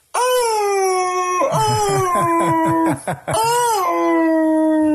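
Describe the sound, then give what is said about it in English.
A voice imitates the howl of a wolf monster from a video game: a long, steady harmonic howl, then a choppy stretch of many short yelping pulses, a brief gap, and a second sustained howl that drops in pitch. “those wolves from Ocarina of Time that walk on their hound legs and go,”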